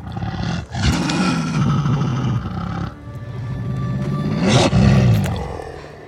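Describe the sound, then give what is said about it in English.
A dog's voice is layered to sound like a wolf pack, giving loud, sustained low howling and growling calls that swell in two long waves with a brief dip between them. “the return of Nymeria scene when she returns to visit Arya with her wolf pack. And every voice in that is my dog Angel.”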